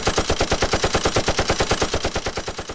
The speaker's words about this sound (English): Can we edit some shots in there?